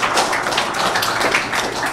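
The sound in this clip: An audience applauds a guest, a dense, steady wash of clapping that holds an even level across the whole stretch, with crowd voices mixed in.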